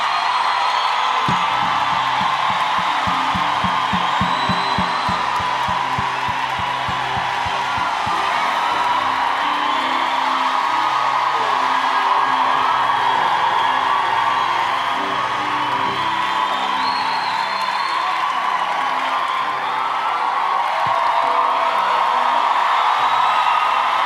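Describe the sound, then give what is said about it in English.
A church crowd applauds and cheers to welcome Bishop Ezekiel Mathole, a loud, sustained roar of whoops, yells and clapping that holds steady throughout, with a quick run of rhythmic low thumps near the start. “let's put our hands together as we welcome Bishop Ezekiel Mathole.”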